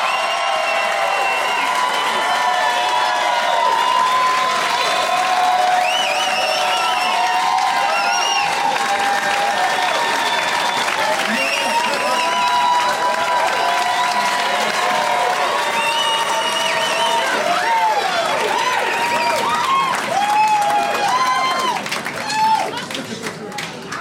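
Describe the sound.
An audience applauds loudly to welcome three guests onto the show. The clapping is dense and sustained for the whole stretch, mixed with cheers, whoops and shouting voices.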